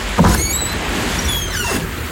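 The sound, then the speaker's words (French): A game-show sound effect marks the opening of cabin door number 37: two swooshing, sweeping whooshes over a steady hiss, the first one louder and sharper. “Le 37, allez, on va jusqu'au bout et on ouvre la porte de la cabine 37.”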